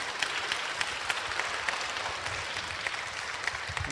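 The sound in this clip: A religious gathering applauds a newcomer with a steady patter of moderate clapping that lasts a few seconds and has scattered sharper claps.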